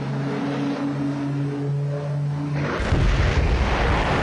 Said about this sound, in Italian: L'esplosione che avete sentito è stata registrata in diretta a Austin, in Texas, nel momento in cui un piccolo aeroplano di turismo si è schiantato